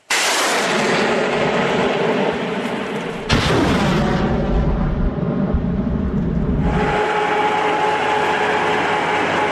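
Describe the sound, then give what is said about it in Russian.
Ukrainian rocket artillery firing toward Pisky on the Avdiivka front: a heavy, continuous roaring rush of launches, broken a few seconds in by a sharp loud blast, then more sustained roar, with no voices. “Працює українська реактивна артилерія у бік Пісок. Так само чути прильоти зі сторони російських військових.”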